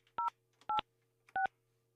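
A telephone number is dialed on a landline: three short, bright touch-tone beeps spaced evenly over a faint steady hum.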